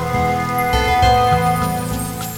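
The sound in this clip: Raindrops falling in a steady, dense patter that stays even in loudness throughout, with no voices.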